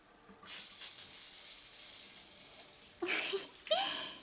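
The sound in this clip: Warm water rinses hair during a shampoo, a steady soft hiss of flowing water that swells into a couple of louder splashing bursts near the end.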